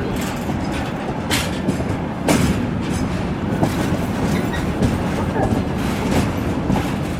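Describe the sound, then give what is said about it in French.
Steady rumble and rattle of the Trans-Siberian train running on its rails, recorded aboard on the gangways between carriages in 2015; a loud, continuous roar with sharp clicks and clacks scattered throughout. “Le son du train sur les rails, on l'entend derrière nous, hein, c'est vous qui avez enregistré ce son du Transsibérien.”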